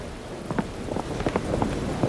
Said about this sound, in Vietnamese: Sấm chớp ghê quá.